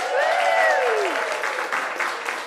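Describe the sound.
An audience applauds at a live event in a small Dublin museum with dense, steady clapping throughout. A falling whoop or whistle rises above the clapping near the start, then the applause slowly eases.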